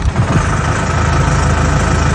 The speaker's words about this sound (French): Maintenant, le moteur va démarrer